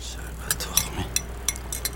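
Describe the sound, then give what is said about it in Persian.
Dice clatter as a player in an Iranian comedy film rolls for double sixes, a series of light, sharp clicks and clacks, faint over a low steady hum. “بیا ببین هرچی میندازم جفشیش میاد”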